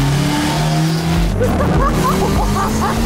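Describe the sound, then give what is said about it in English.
Tires squeal as a three-wheeled Slingshot sports vehicle charges through a corner. A steady engine drone runs throughout, and a run of sharp, wavering squeals rises in the second half. “This is Slingshot. Sport tuned to charge every corner. It's like surfing asphalt.”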